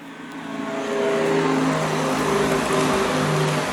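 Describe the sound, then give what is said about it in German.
A Renault Zoe electric car, switched on, emits its synthetic warning sound: a layered hum of steady electronic tones that grows louder after the first second and then holds, with the tones shifting. “So hört sich eine Renault Zoe an, wenn man es eingeschaltet hat.”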